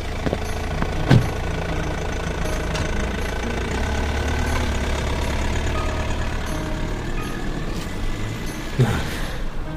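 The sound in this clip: A car engine runs with a steady low rumble as the vehicle drives away. A couple of brief louder bursts stand out near the start and end.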